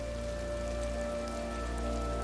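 Rain patters on a pond as an even, continuous hiss, steady throughout, over a sustained low hum.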